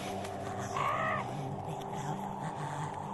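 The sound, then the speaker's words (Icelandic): A raven caws noisily outside a window, giving one harsh, rasping call over a steady low hum. “Það situr hrafn fyrir utan gluggan og með hávaða og læti.”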